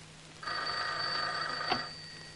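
A home telephone bell rings in one sustained electric burst of about a second and a half, faint and steady, with a brief clatter near the end and no voices.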